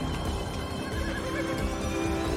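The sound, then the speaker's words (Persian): A horse whinnies over the clatter of hooves as riders flee on horseback. A wavering, high neigh rises above a continuous, loud, fast beat of galloping hooves. “صحنه ای که لازلاو و سیریلا با اسب فرار میکنن.”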